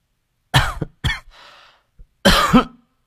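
Soft coughs from a woman: a few short, muffled bursts, the first two close together, then a faint breathy pause before a final, slightly fuller cough.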